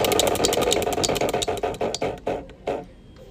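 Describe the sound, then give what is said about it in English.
A prize wheel spins with a rapid run of sharp ratcheting clicks that gradually slow and spread apart, the last few ticks coming singly before the wheel stops. “All right, let's spin the wheel. I spin the wheel.”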